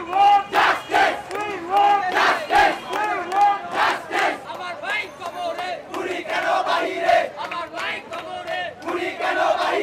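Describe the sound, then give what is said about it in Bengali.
A crowd of protesting students chants slogans on a city street. Loud, rhythmic bursts of massed voices repeat in a steady cadence. “এ সময় স্লোগানে মুখর ছিল রাজপথ।”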